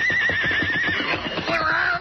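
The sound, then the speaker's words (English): A horse whinnies in one loud, shrill neigh lasting about two seconds, its quavering pitch wavering and then lifting near the end before cutting off. “I'm letting the reins fall, old fella. You lead the way. Take us where you want to go.”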